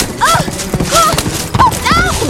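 Hooves clip-clopping from a galloping horse as a rider chases a wagon through the woods, a quick, steady run of hoofbeats at moderate loudness with no talk.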